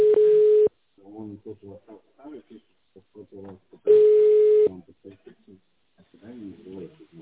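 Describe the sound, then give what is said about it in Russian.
Telephone line connecting tones: two long, steady beeps about three seconds apart, with a recorded voice speaking between and after them. “Пожалуйста, оставайтесь на линии. Происходит соединение.”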